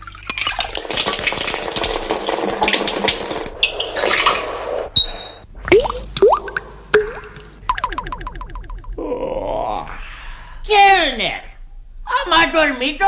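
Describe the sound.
Water splashing and running as someone washes with water that is too hot: a loud, rushing burst at the start, then intermittent splashes and drips broken up by grunts, exclamations and talking voices.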